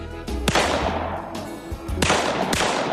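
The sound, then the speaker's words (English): Gunshots from a short-barrel gun aimed at a target 25 to 30 yards away, a few sharp cracks cutting through a constant noisy background. “Now, it's a shorter barrel, so it's probably not as accurate. 25, 30 yards, you ought to be right on. Okay, try not to let the gun come up. Try to put a little into it a little bit where you keep it down and do like a 2-round burst.”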